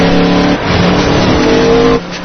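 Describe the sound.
A car engine revving hard, its droning harmonic tone loud throughout, strengthening after the first half-second and easing off near the end.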